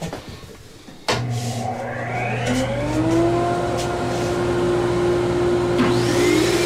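Loud, steady hissing spray from a silver hose as clear, smelly liquid finish is sprayed onto a new guitar neck in a finishing room no larger than a walk-in closet. It starts abruptly after a quieter moment, with a droning motor hum beneath.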